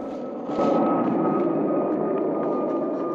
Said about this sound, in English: As the plane flies past, Ralph